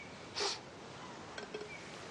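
A woman sniffling makes one short, sharp nasal sniff early on. It is faint against quiet background hiss, with a few soft small rustles afterward.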